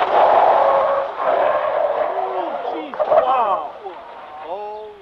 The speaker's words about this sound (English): But when the Trooper was made to run the course, it went up on two wheels, nearly tipping over. Bystanders can be heard on the tape exclaiming their surprise.